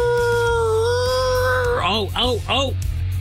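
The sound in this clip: A voice imitates a puppy howling along to a wailing ambulance siren. A long, steady, held tone gives way to three loud, wavering howls that rise and fall, over a low background hum.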